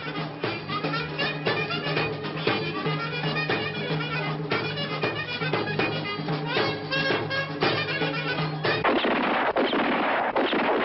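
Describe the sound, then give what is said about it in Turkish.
Celebratory gunfire at a wedding: many rapid, loud bangs come in a dense, continuous barrage. Near the end they give way to a harsher, noisier burst. “Asya ile İlyas düğünde oynarken silahlar atıldı.”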